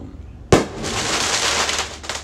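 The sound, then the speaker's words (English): Fourth of July fireworks go off with one loud, sharp bang, then a sustained crackling rumble and a smaller pop near the end. “sorry for the fireworks, everybody. It's the 4th of July.”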